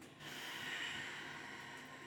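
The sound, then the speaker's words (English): Faint, airy rush of a deep breath drawn in through the nose, a single steady nasal breath lasting about two seconds with no talk. “we are going to take some deep breaths in through your nose, 2, 3, and out through your mouth.”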